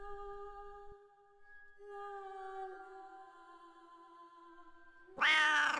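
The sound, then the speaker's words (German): A cat meows in a long, steady, drawn-out tone, then breaks into a sudden louder, higher yowl at the very end, with no voices around it. “Was hockt dieses Katzentier immer nur in ihrem Zimmer?”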